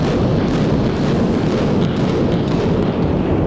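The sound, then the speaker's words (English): Dynamite demolition of the 700-room Sands Hotel in Las Vegas, 1996, gives a loud, deep, continuous rumbling roar that stays heavy throughout, with no separate blasts standing out. “On November 26, 1996, the 700-room Sands Hotel, once the heart of Vegas cool, was laced with dynamite and blown up.”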